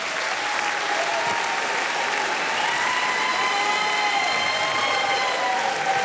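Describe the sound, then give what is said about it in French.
Studio audience giving an ovation during a live radio show, a thick, steady roar of many hands clapping at an even, loud level for about six seconds with no break or talk. “Une nouvelle ovation pour Stéphane Escher”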